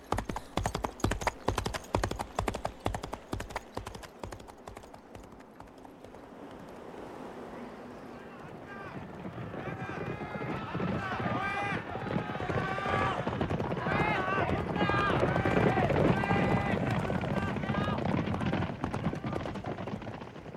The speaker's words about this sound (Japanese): エゴロワおばさんと僕は馬に乗り、アルフォンの元へと走った。